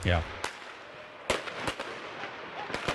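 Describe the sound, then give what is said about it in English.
Fireworks exploding in the Paris streets during a night of rioting: a few sharp, loud bangs and crackles burst out at uneven intervals over a low background hiss. “Fireworks explode in the streets and fires rage while armed police tried to disperse groups of”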